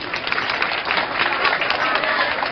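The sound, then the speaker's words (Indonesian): Applause from an audience, a thick, even patter of many clapping hands that sustains without pause at a moderate level, with talk faintly mixed in. “Tepuk tangan untuk Indonesia.”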